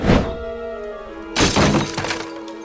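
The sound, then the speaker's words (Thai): A thrown wooden log smashes into a plate of beans: a sharp crash with ringing tones, followed by a longer, louder burst of shattering and clattering pieces. “ชดินเหวี่ยงท่อนไม้หมายร่างพญานกพิราบแต่พลาดโดนจานถั่วแตกกระจาย”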